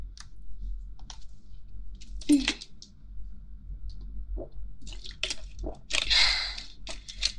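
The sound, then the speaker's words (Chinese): A sip of water is drunk with a few soft, wet squishing and slurping sounds scattered across an otherwise quiet background. “我有点渴了，我也要喝一口水。”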